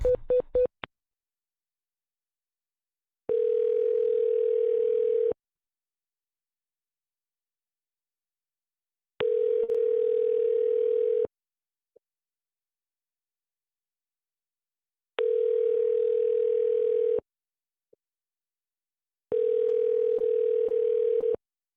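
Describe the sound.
Telephone ringing tone on the line while a call is transferred: four long, steady beeps of about two seconds each, separated by long silences, with a few clicks at the start.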